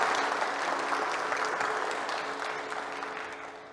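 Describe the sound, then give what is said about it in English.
Church audience applause welcomes a preacher before his sermon. The dense, steady clapping holds at a strong level, then thins and fades slightly toward the end. “Let us welcome D.S. Saya with our big hands.”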